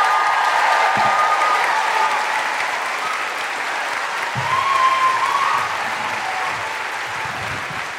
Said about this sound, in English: Put your hands together and make incredible Christchurch welcoming guilty feminist woohooing noises for Fiona Given and Hannah Hudson.